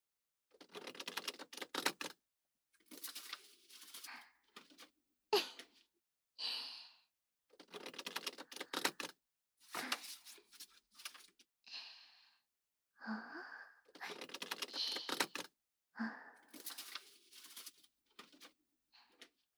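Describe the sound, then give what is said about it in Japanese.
Waterfall shuffle of playing cards during a magician-style demonstration, heard as soft, rapid riffling crackles in many short bursts separated by brief pauses, fairly faint and without talk. “水が流れ落ちるようにシャッフルされるからウォーターフォールです”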